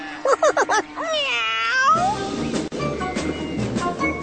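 A cat meows and caterwauls. A few short, sharp yowls lead into one long, drawn-out wavering meow, followed by harsher, rougher noisy sounds.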